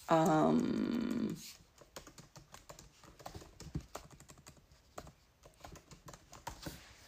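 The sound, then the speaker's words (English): Typing keywords on a computer keyboard: after a loud opening sound lasting about a second, a long run of soft, quick key clicks follows in uneven bursts. “I'm so sorry for doing this, but I need to type in just a couple of keywords.”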